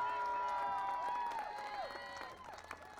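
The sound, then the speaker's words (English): An outdoor rally crowd against drilling in Brentwood applauds, with scattered clapping and rising and falling whoops under a voice, strongest at first, then tapering. “All of you should give yourself a big round of applause for being here, for showing up.”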